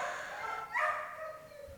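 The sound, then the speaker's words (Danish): A short, faint dog bark comes from a kennel where unwanted dogs are handed in. It is a single brief yelp-like burst heard over a steady background hiss. “Jeg skal prøve at gøre, hvad jeg kan for at begrænse mængden af hundelyde i mikrofonen.”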